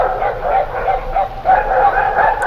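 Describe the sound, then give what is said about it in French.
Dogs barking: many quick, mid-pitched barks and yips in a steady, repeating rhythm, fairly loud and continuous through the whole clip. “Oui, c'est un son, c'est des chiens qui aboient, n'est-ce pas?”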